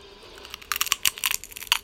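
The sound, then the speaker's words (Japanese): Crunching of potato chips being eaten, sharp crisp crackles that start sparse and quiet, then grow busier and louder in an irregular run with no talk. “違うポテチを食べて。”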